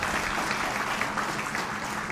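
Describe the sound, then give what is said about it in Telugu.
An audience applauds during a Telugu recitation of devotional verse, with steady, dense clapping holding an even level throughout and no voices above it. “ఇప్పుడు దీనికి అర్థం చెప్పకపోతే ఎందుకు చప్పట్లు కొట్టారో తెలియదు. ఎందుకు ఎందుకు చప్పట్లు కొట్టారు?”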